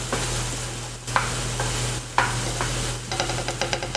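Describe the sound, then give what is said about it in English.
Garlic sizzles in a frying pan with a steady, bright hiss and a low hum beneath it. A few scrapes from stirring are heard, and a quick run of light clicks comes near the end. “As soon as the garlic hit the pan, it was just like, holy shit, so good.”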